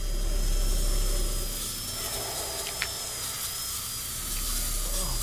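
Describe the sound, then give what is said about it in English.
A surgical drill boring through dark hair into a man's skull to take a brain sample, giving a steady thin high whine that wavers slightly over a low rumble, with one sharp click near the middle. “The doctor drills through Fletcher's dark hair into his skull. Taking a brain sample. Blood spatters appear on the drill and steam rises from Fletcher's head.”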